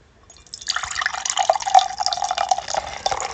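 Beer being poured, a white ale going into a coffee mug: a continuous frothy, gurgling rush of liquid that starts after a brief quiet moment and stays fairly loud and steady to the end.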